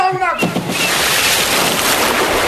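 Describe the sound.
A loud splash of water as the devil jumps into a pond, bursting in abruptly and then a sustained rushing, hissing churn of water that continues steadily to the end.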